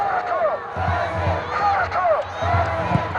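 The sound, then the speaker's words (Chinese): Football fans shouting and cheering for their team during a match, a loud crowd roar that swells and recedes in waves, with chant-like rising and falling calls over it. “球迷在呐喊助威， 也在为自己的球队啊加油打气。”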